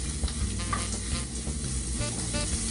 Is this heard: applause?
no